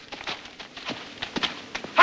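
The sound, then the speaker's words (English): Hoofbeats of a horse trotting in a neat circle on a six-foot lunge rope, urged on with a short crop. Light, steady, rhythmic footfalls repeat at a fairly quiet level. “Holding a 6-foot lunge rope, he wags a short crop several feet from Pie's powerful hindquarters and prods him into a trot. Pie steps lightly in a neat circle.”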